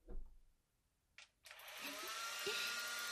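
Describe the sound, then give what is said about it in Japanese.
A hair dryer drying wet hair in a salon starts after a faint click and brief burst, then blows a steady, broad whooshing roar that holds to the end. “仕上げに髪乾かしますね。”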